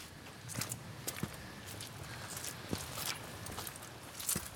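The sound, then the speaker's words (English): Footsteps walking up a muddy trail through eucalyptus trees in Oakland: soft, faint, irregular steps with a few sharper squelching thuds. “I'm walking up a muddy trail”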